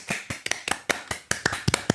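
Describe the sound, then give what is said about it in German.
Scattered hand claps as an applause sound effect: roughly nine sharp, separate claps at an uneven pace, fairly faint, with no dense crowd behind them. “Das wird halt eine Applausfolge. Heute bekommen alle Applaus.”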